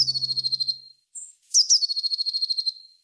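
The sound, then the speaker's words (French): A blue tit sings a high, thin trilling song of rapid repeated notes. Two clear bursts are separated by a short pause, with a brief higher note between them. “Alors peut-être que vous avez déjà entendu ce chant, c'est celui de la Mésange Bleue, un livre lui consacré, Stéphane Delétreau”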